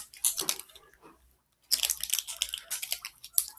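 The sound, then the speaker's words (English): Someone chews fruit snacks, with moist, crunchy chewing in two stretches separated by a short silent pause. “No, I'm gonna eat one. Well, these are also all obviously fruit snacks.”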